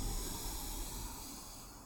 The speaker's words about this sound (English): Inhale through the nose. Exhale. Inhale.